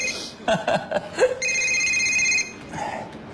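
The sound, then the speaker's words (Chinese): A telephone ringing: a steady, bright electronic ring that sounds for about a second after a few short, soft sounds, then fades into quiet background. “哎，你电话”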